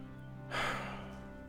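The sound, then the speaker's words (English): A person exhales cigarette smoke after a long drag. The faint, breathy rush starts suddenly, then slowly trails off, with no other sound around it. “She takes a long drag of the cigarette and exhales the smoke.”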